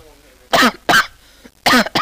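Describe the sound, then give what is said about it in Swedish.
A person coughs in a few sharp, loud, harsh bursts with brief gaps between them. “Jag fick sån hosta.”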